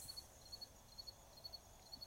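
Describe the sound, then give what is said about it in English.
Crickets chirp in soft, high double pulses, repeating in a steady rhythm of five evenly spaced pairs over a quiet background. “as you can hear the crickets in the background”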